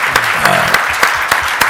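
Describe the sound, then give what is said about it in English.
Audience applause at an event, a dense and steady patter of clapping that stays loud throughout, with a few sharper peaks. “I just hope you'll join me in giving them a round of applause for the fabulous job they do.”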